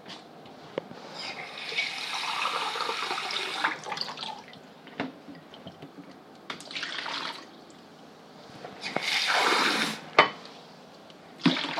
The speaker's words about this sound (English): Important thing. Water.